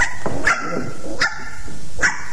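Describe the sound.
Three sharp, high-pitched barks from a small dog, evenly spaced about three quarters of a second apart, over a steady low background hiss.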